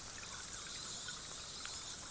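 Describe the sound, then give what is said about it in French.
Underwater hydrophone recording: a faint, steady high hiss with scattered soft clicks and crackles, with no voices. “Elle utilise des micros hydrophoniques, donc pour aller enregistrer sous l'eau.”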